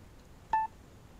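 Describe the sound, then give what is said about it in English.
Telephone touch-tone dialing while joining a conference call: a single brief two-tone keypad beep, clear and alone over a faint low hiss. “All events are conference calls. Start dialing and get in on the conversation.”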